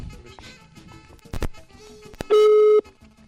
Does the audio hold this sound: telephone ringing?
yes